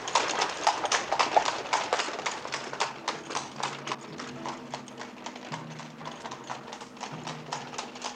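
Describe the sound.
A horse pulling a carriage, urged on to hurry, beats out rapid, regular clip-clopping hooves that continue throughout. The many sharp strikes fall in an even rhythm at a moderate, steady loudness.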